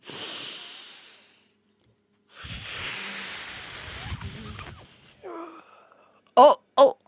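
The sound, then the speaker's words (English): A laughter yoga group blows out imaginary birthday candles with long, breathy exhales. Two sustained airy gusts are separated by a short silence, then a few brief voiced bursts follow at the end. “You're going to take a deep breath in and we're going to blow out those candles.”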